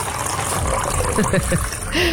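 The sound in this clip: Hot water is poured from a boil into an aluminium thermal cup, a rushing, splashing stream with a bright hiss, short and continuous.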